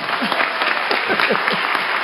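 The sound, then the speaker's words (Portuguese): Applause from an audience at a ceremony: dense, steady clapping from many hands that holds at an even, fairly loud level for about two seconds, with no talk over it. “Dá uma salva de palmas para ele aí.”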